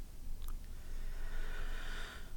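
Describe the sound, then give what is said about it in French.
A slow exhale through the mouth during a guided breathing exercise: a soft, airy hiss that swells gently in the middle and then fades. It is faint, with no talk. “J'expire très doucement avec la bouche, épaule, poitrine, ventre.”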